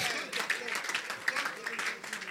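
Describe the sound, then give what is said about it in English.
Congregation clapping for the Lord Jesus during a church sermon, with sharp claps scattered through the stretch and a voice heard over them. “Generous Father, clap for the Lord Jesus.”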